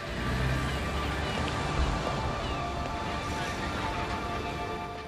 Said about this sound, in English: Vehicles drive away from a customs point.